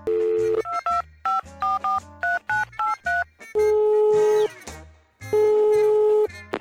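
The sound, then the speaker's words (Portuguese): Telephone keypad tones as someone dials to make a call: a rapid series of short, bright beeps, then two long, steady ringing tones. No voices. “Eu vou até ligar pra ele agora, peraí, dá licença.”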